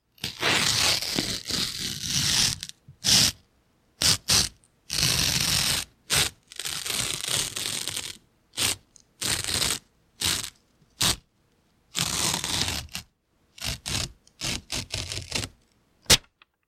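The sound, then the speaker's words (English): A paper envelope is torn open in many rasping rips, some long and some short, separated by brief silences. “Open the envelope!”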